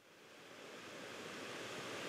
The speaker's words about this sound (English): We're at the river, the Corrib River, as it flows out of the loch towards the Claddagh Basin.